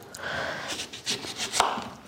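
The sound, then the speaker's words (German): A knife cuts a lemon in half in a kitchen while a bean dish is being prepared. A few soft, crisp slicing and crunching sounds come through faintly. “dann nehmen wir eine Zitrone, schneiden mhm. die zur Hälfte.”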